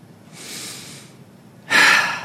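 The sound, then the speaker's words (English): A deep human breath before a church sermon: a soft, drawn-out inhale, a short pause, then a louder, rushing exhale. “Deep breath.”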